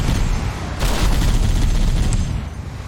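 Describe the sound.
Loud, dense gunfire rattles from a big gun mounted on the back of a ground vehicle in a video game. The blasts merge into a continuous roar that swells after the first second and stays heavy throughout.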